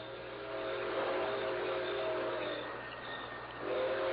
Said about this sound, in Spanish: Por ahí viene el tren.